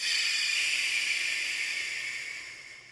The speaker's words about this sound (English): Hold it. And exhale through the mouth loudly.